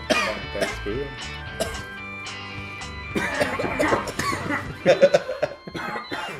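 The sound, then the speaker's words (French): A run of harsh, throaty coughs comes in several abrupt bursts, followed by rougher throat sounds and vocal noises as the coughing continues. “T'as fini de tousser? Ça reste poigné dans la gorge.”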